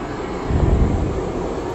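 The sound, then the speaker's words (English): An aircraft drones near an airport as a steady, broad rumble. It swells slightly midway, and no voices are heard. “I extremely apologize. I'm actually near airport right now as I'm doing this podcast, but I know you guys will be more than understanding”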